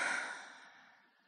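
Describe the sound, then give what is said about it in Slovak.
A single slow, breathy exhale after a deep breath. It is a soft, airy rush that fades steadily over about a second and a half. “A posledný nádych. A výdych.”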